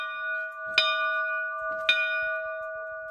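A church bell in the church of Saint-André, checked and found not cracked, is struck twice, each strike followed by a clear, sustained ringing hum that carries on between and after the strokes.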